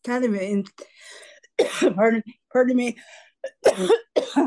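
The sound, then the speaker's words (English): Harsh, repeated coughing and throat clearing in uneven clusters of loud bursts, mixed with voiced, strained sounds between them. “can you edit out coughing?”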